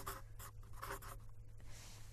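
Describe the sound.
A pen scratches in a journal, making several faint, quick strokes in an uneven rhythm over a steady low hum.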